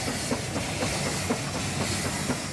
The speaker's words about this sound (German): Der erste Bergzug wird bereitgestellt, lange bevor die Fahrgäste eintreffen.